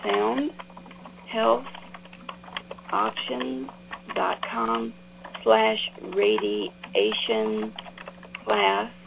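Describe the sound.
Typing on a computer keyboard, with faint, irregular key clicks scattered beneath a voice that keeps talking throughout.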